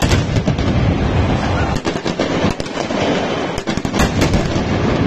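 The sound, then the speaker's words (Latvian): Stun grenades go off as several hundred security forces use them with tear gas to disperse a crowd of thousands gathered on a square. Many sharp, loud bursts crack through a dense, constant roar of noise. “ieradušies arī vairāki simti drošības spēku darbinieki, kas cilvēkus izgaiņāja, pielietojot asaru gāzi un trokšņu granātas”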